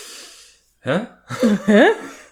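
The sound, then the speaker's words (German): Noisy breathing from a person: loud, breathy gasps with voiced, whimpering tones that rise in pitch, coming in a few short bursts after a softer airy breath. “Ich atme geräuschvoll, sei ruhig.”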